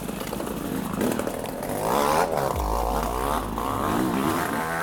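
Two-stroke motorbike engine struggling after its front pipe was ripped out of the barrel, a harsh raspy buzzing drone that revs higher partway through and wavers, loud and continuous.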